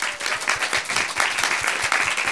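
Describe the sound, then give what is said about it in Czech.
Audience applause after a band's set at a music event: dense, steady clapping from many hands that stays loud and even from start to finish, with no voices standing out. “tak potlesk ještě jednou, prosím”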